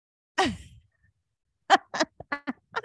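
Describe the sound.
A single sharp sneeze bursts out with a quickly falling tone, followed by a pause and then a few short bits of quiet talk.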